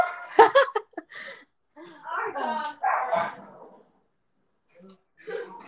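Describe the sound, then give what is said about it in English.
A dog barking in the background during cooking, with a few sharp, short barks at the start, followed by a person talking. “I'm sorry about my dog in the background.”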